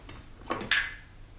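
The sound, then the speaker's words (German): Plates being changed at a dinner table: two short ceramic clinks in quick succession, the second brighter, standing out faintly against a quiet background. “Lass mich die Teller wechseln.”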